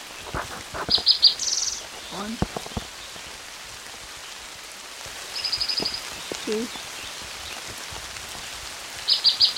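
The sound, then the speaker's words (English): Heavy rain falling at a creek in Idaho in June, a dense, even hiss with scattered drop hits, while a few short, high bird chirps break through now and then. “It's raining pretty hard.”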